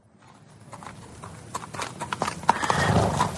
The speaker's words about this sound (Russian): Вера, услыхав шум лошадиных копыт в воротах